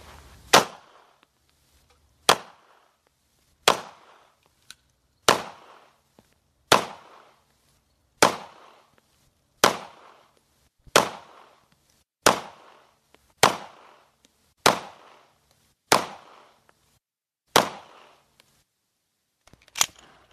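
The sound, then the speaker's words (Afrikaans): Pistol shots fired at a target until the magazine is empty: more than a dozen sharp cracks at a steady pace, each with a quick decaying tail and short pauses between. “So nou is die wapen leeggeskiet, die magasyn is leeg, die glystuk van van self oopsluit of oop oopgesluit word deur die werking van die magasyn saam met jou slide lock.”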